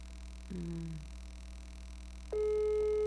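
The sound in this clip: Telephone ringback tone while waiting for someone to answer a call: a short falling tone, then after a pause a steady, louder tone with a sharp start over a low constant hum.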